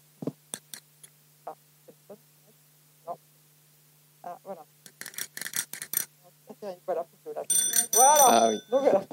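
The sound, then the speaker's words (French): Bicycle bells ring as the signal for a cycling group's arrival at a congress. A few sharp isolated clicks come first, then voices talking, then a loud dense burst of rapid, overlapping metallic ringing. “du coup j'ai pris mon petit instrument, c'est la sonnette.”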